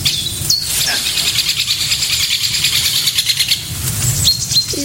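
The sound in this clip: A great spotted woodpecker calls outdoors among trees: a few sharp, high call notes stand out over steady chirping from other birds, with no talk.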